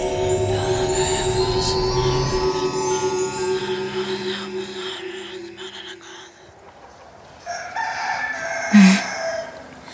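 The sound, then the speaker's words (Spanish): Roosters crowing at dawn, coming in through a window: long harmonic crowing calls in the opening seconds fade out, and a brief, louder call rises near the end. “Desperté con el cantar de los gallos.”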